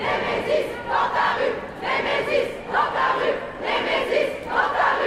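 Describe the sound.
Crowd of demonstrators at a protest in France chanting a short slogan of a feminist collective over and over, the shouted phrase rising and falling in a steady, insistent rhythm with no pause between repeats.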